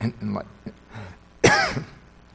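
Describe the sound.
Throat clearing during a prayer at a chapel service: one loud, rasping burst near the middle, preceded by softer low vocal sounds and trailing off quickly.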